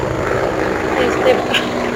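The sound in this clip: A helicopter's rotor and engine drone on steadily in the background while a person talks over the noise.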